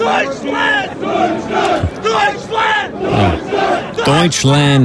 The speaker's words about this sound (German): Ja, man muss sie halt ein bisschen anfeuern. Und in Amerika klingt das ein bisschen so.